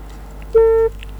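A telephone line tone sounds as a caller's connection to a radio phone-in drops. It is a steady mid-pitched beep lasting about a third of a second, and a second beep starts at the very end, over low background noise.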